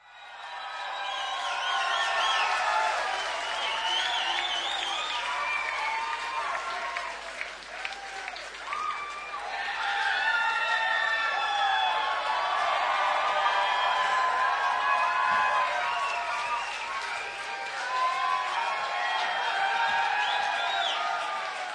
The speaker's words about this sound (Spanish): esperen un poquito que empiece la canción, porque empieza con una ovación media larga